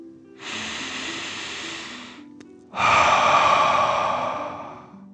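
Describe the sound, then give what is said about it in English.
Deep breathing during a guided dragon-breath exercise: one slow, airy inhale in through the nose, a brief pause, then a louder, rougher exhale out through the mouth that fades gradually. “Deep breath in and out.”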